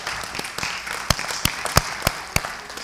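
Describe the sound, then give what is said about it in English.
Church audience clapping in celebration during a service, a hissing bed of applause punctuated by several sharp, louder individual claps that stand out at uneven intervals. “That clap is to celebrate us and celebrate what God is doing.”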